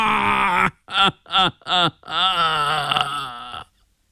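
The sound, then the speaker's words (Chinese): A man wails and cries loudly, beating his chest in grief: one sustained cry, three short sobbing bursts, then a long, drawn-out wail, all loud and strained. “他突然捶胸顿足，啼嚎起来，滂沱的哭声跟念大悲咒似的”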